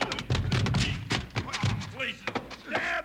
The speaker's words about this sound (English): You fell down and tripped him